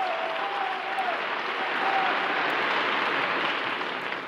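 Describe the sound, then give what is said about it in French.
Applause from a standing hall audience at a 1944 patriotic meeting at Chaillot, a dense, unbroken wash of clapping and crowd noise held at a steady level throughout. “Toute la salle debout acclame le général.”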